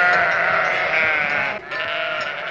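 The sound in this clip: Sheep kept in a village yard bleat, loud wavering overlapping calls that continue almost without pause, with one brief dip partway through.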